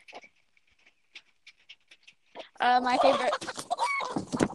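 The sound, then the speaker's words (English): Agitated chickens clucking and squawking: a few faint scattered clicks and clucks give way to a sudden loud, sustained burst of harsh, overlapping calls. “Chickens are freaking out.”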